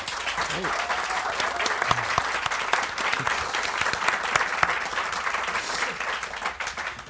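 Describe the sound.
Audience applause welcomes two novelists at a literary event, a loud, continuous patter of many hands clapping that stays dense and even from start to finish.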